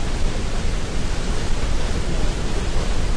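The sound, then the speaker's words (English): Steady, loud roar of a waterfall where a river ends, a dense, unbroken rush of water noise that holds even throughout with no pauses. “It was the sound of a waterfall.”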